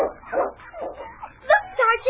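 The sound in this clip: Sled dogs bark and whimper in a few short, uneven yips and higher-pitched whines, with louder, sharper barks near the end.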